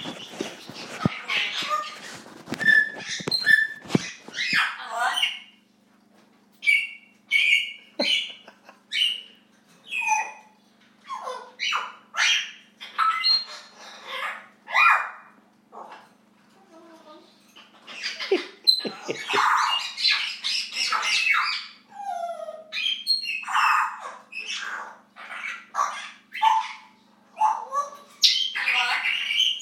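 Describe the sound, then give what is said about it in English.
Parrots squawk and screech in a frenzy, with many loud, harsh, piercing calls in rapid bursts separated by brief gaps, continuing throughout. “I'm at Sam's and the parrots are going crazy. They were going crazy.”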